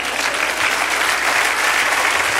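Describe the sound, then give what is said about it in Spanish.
Congregation at a Spanish-language church service clapping in praise; a steady, loud wash of many hands applauding continuously for a couple of seconds. “Dele aplauso al Señor.”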